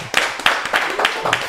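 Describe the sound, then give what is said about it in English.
An audience claps as a guest is introduced, giving a quick run of crisp, roughly evenly spaced claps at a moderate level. “Let's clap for Ja.”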